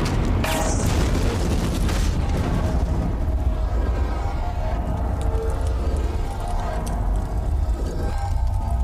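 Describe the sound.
Oxygen cylinders shot and exploding: a loud boom with a bright, sharp blast near the start, then a long, heavy rumbling roar that stays dense and loud throughout.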